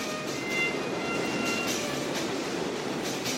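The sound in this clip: Subway train in a subway station, a continuous rumbling roar of rail wheels with faint, thin metallic squealing tones running above it.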